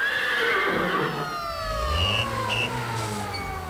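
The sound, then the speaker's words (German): A horse in a big city lets out a long, quavering whinny that falls in pitch, with a brief higher call overlapping it. “Die Pferde wiehern.”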